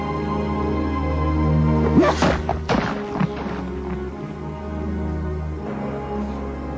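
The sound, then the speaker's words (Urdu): A cluster of heavy blows lands in quick succession as someone is beaten, sharp thuds over a low, sustained musical drone that carries on alone afterward. “مارو اسے.”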